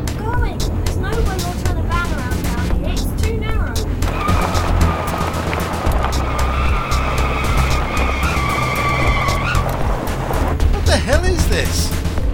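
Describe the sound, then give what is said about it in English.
A car drives fast down a dirt track, its engine droning low beneath bursts of skidding and squealing tyres, with a dense, continuous roar throughout. “driving us down a bloody dirt track!”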